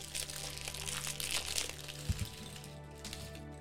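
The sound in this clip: Crinkly packaging rustles as parts of a kit with a head and a shield are unpacked: a faint, steady crackling runs throughout over a low hum, broken by one brief, dull thump partway through.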